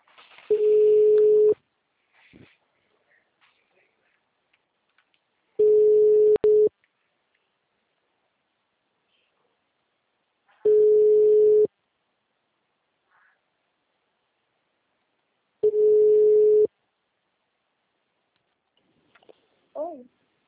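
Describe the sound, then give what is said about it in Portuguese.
A telephone line gives a busy signal, four evenly spaced beeps of a single steady tone, each lasting about a second, separated by long silent gaps. “Esse número é dele? O número está ocupado.”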